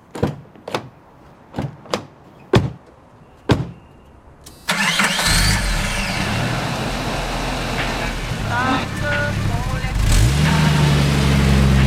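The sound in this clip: A car engine starts after several sharp clunks and knocks. The engine catches abruptly and settles into a steady, loud running rumble that continues to the end.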